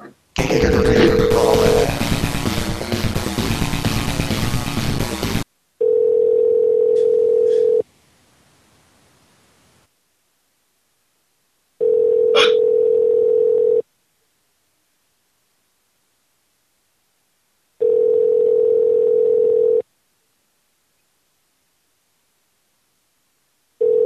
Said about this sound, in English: Calling back now? I'm calling back.